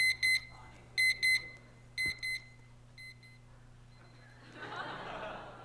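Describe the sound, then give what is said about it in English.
An alarm clock going off: high, piercing electronic beeps in quick pairs about once a second, each round fainter than the last, followed by a rising murmur of laughter. “That's the alarm clock going off.”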